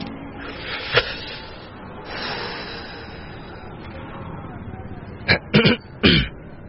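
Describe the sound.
Someone clears their throat in a few short, rasping bursts toward the end, after a quieter stretch with a brief sharp sound early on.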